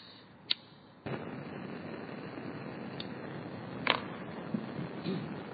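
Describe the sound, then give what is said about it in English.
A gas burner is lit to feed a flame in a fire-driven musical instrument: a sharp click, then a sudden steady roaring hiss of burning gas that holds level, broken by a few faint ticks. “Light the gas.”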